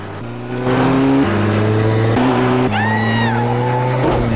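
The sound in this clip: A motorbike engine revs hard as the rider chases a red car through traffic, over an obstacle and up a footpath. The loud, tonal whine holds steady, then jumps between pitches in a few abrupt steps, with a higher tone rising and falling briefly midway.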